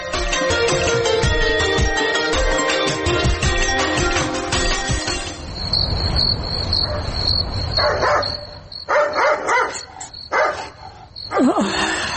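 Dogs barking in the night, with a few sharp, loud barks in the second half that stand out over a dense, steady background.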